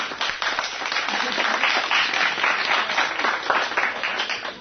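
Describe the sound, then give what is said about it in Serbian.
Audience applause welcoming student readers at a school program: dense, steady clapping that fills the whole stretch at an even loudness, with no pauses. “Pozdravimo ih aplauzom.”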